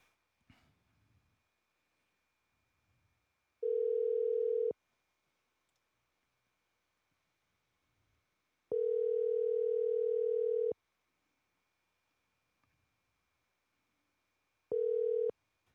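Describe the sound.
Ringback tone of an unanswered phone call: a steady mid-pitched electronic tone sounds three times with long silent gaps between, the middle tone the longest, and no talk.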